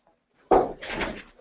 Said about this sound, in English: Let me move this chair.